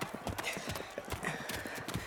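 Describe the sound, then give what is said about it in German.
Quick, steady clip-clop of hooves from the horses of jousting knights riding toward each other, with many hoofbeats in an even rhythm throughout. “Oh nein, die Ritter drehen um und reiten erneut aufeinander zu.”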